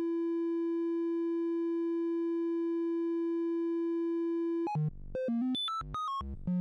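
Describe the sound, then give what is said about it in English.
A modular synthesizer oscillator holds one steady, pure tone for several seconds. A stepped random voltage from the second channel of a Clavis Twin Waves module then sends it jumping between many unrelated pitches in quick, abrupt steps. “I will take the second channel of Clavis, and I will do a stepped random voltage on it.”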